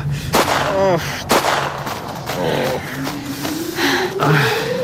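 Gunfire during a staged chase after a fleeing man: two loud, sharp cracks in the first second and a half, then a few softer bursts, over a steady, wavering tonal background.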